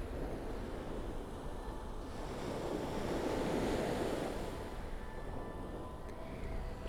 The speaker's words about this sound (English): That might be a little better, but. Maybe we're just gonna have to deal with the wind.